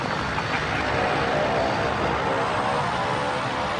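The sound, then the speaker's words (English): A light aircraft engine drones as the plane comes in to land nearby. The steady, broad roar stays loud and unchanging from start to finish. “They run to meet a light aircraft which lands nearby.”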